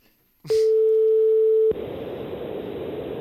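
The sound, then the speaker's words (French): A steady telephone dial tone sounds while a listener is being called live on air. It holds one even, mid-pitched note for just over a second, then cuts off abruptly into a constant hiss of line noise. “On appelle donc 5-6 numéros.”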